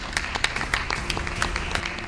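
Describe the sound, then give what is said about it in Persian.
A studio audience applauds a guest on a talk show. Many quick, overlapping hand claps form a faint, crackling patter at a steady level. “خواهش میکنم تشویق کنید مهمونمون رو.”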